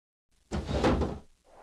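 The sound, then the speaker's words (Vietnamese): Two windows are flung open by fierce wind and smash: a single broad, whooshing crash lasting under a second, with a faint trailing noise after it. “Một tiếng rầm vang lên khi những cơn gió hung tợn hất tung hai cánh cửa sổ khiến chúng vỡ nát.”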